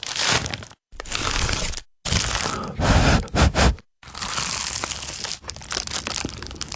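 Crisp crunching of bites into a baked pie crust: a few loud, crackly bursts of breaking and chewing, separated by brief silences, with no talk.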